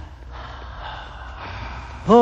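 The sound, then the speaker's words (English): A slow deep breath drawn in as a soft, airy hiss lasting under two seconds, followed at the end by the onset of a voice. “Take a deep breath.”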